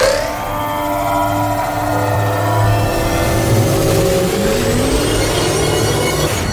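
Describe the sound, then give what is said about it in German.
A sci-fi effect of a time-travel app starting up: a loud, continuous whirring drone with many tones gliding steadily upward in pitch over several seconds. “Einen Augenblick bitte. Ich starte die Zeitreise-App. Zeitreise-App ist bereit.”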